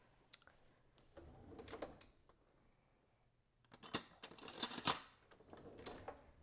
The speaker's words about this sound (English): I'm gonna now add sugar. Let me grab a different spoon and